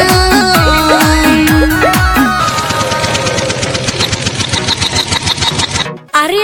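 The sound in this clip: A generator engine runs with a loud, rapid and steady mechanical chugging after a short stretch of other tonal sounds, then briefly drops out near the end.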